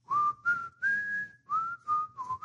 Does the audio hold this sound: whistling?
yes